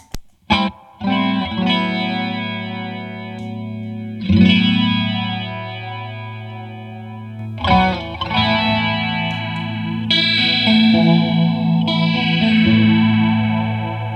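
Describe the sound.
Electric guitar played through a custom-shop JAM multipedal's phaser with the warp switch on: a series of ringing chords, each sustained and swept by a swirling, wobbling modulation, with no talking.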